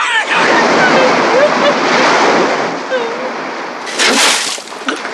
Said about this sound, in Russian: Пенящиеся волны сбивают ее с ног.